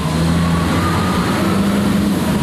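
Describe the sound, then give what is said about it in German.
Heavy engine rumble from a 91-tonne, 1217 hp mining haul truck carrying visitors through an active open-pit iron ore mine: a loud, dense, continuous drone with a deep low end and a faint steady whine above it. No talk. “Wie viel wiegt der Hauli generell? 91 Tonnen, unser Besucher-Hauli. Wie viel PS hat dieses Gerät, mit dem wir da unterwegs sind gerade? 1217 PS.”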